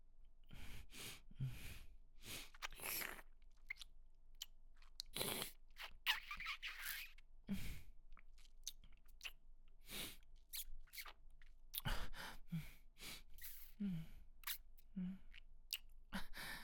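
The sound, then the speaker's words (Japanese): Teeth nibble lightly on something crunchy, making many soft, irregular crisp clicks and crunches that come faint and close, mixed with quiet breaths throughout. “歯で噛んで軽くカリカリするよ。”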